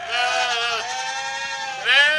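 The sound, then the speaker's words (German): Sheep bleating at a convent flock: a couple of long, wavering, nasal bleats run together, with a pitch break midway and a louder, higher bleat rising at the end, clear and without talk. “Und was für welche und wie viele Schafe sind's im Kloster der Würzburger Erlöserschwestern?”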